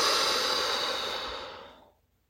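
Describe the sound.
A long, breathy exhale during a guided relaxation breathing exercise, starting loud and fading steadily into silence after about two seconds, with no voice over it.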